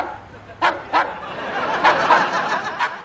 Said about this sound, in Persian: این صدای سگه؟ بله.